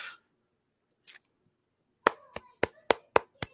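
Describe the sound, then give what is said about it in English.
Light, slow golf clap: six sharp hand claps in an even, unhurried rhythm, quiet and alone after a couple of faint brief noises. “give a little golf clap there going.”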